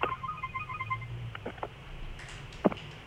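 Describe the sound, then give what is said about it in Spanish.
A phone ringing with an incoming call during a talk: a faint, rapidly pulsing ringtone of mid-to-high tones in the first second, followed by a few soft clicks and one sharper knock. “Uy, disculpen que recibí una llamada.”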